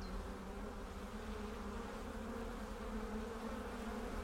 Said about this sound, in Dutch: Dit zijn mijn twee volkjes, ja. Een groot volk en een wat kleiner volk. Dus je bent een imker? Imker, ja. In deze kast zitten misschien 50.000 tot 60.000 bijen.